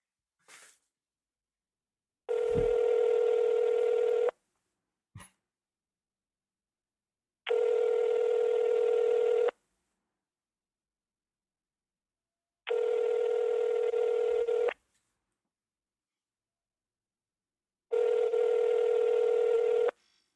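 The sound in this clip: Telephone call tones: four long, steady, loud tones repeat at even intervals, with brief clicks in the silent gaps between them.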